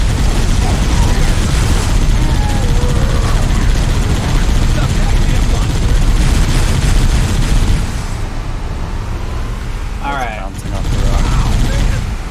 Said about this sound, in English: I feel like you need to make more yeehaw kind of yells as you machine gun people with that turret.